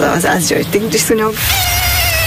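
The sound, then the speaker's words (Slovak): An Asian tiger mosquito buzzes in a thin, steady, high whine with clear overtones that holds for under a second. Before it, a person talks briefly. “Najčastejšie identifikovaným druhom je ázijský tigrovaný komár.”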